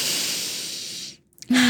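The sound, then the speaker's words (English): A group of women takes a deep breath together: a long, breathy hiss of about a second that fades into silence, followed at the end by a voice starting a sustained tone. “let's take a deep breath. One more deep breath.”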